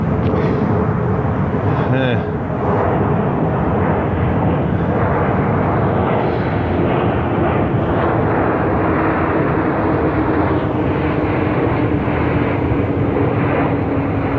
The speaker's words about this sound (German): alle 45 Minuten fliegt ein Flugzeug über mich hinweg. Das ist nicht schön.